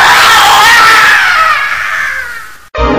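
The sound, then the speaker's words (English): A man screams in a darkened room, a loud, drawn-out cry that starts high and slides gradually lower over nearly three seconds before breaking off abruptly. “Just as the light left the room, Carl screamed out,”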